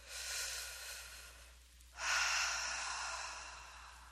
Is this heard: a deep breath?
yes